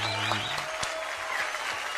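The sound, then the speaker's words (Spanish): Applause for birthday celebrants: steady clapping that holds at an even level for about two seconds, with a brief tonal sound at the start. “Aplauso para los cumpleañeros.”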